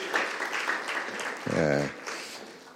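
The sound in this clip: Applause from an audience at a church service welcomes a speaker, with steady, dense clapping throughout and a brief voice rising over it midway.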